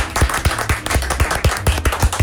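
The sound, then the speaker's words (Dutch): Audience clapping in time with a thumping beat, sharp regular claps landing in a steady rhythm of around four per second, loud and even. “We gaan nog één keer voor de klappen, mensen.”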